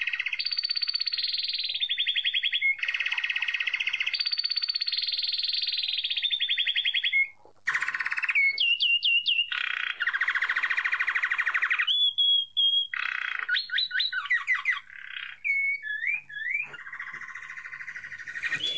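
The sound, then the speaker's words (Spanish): A saffron finch, a common bird of Argentina, sings loudly and alone. It repeats bright, high trilled phrases and mixes in rapid chirps and warbling notes, with brief pauses between bursts. “El jilguero dorado que estamos escuchando es una de las aves más conocidas de la Argentina”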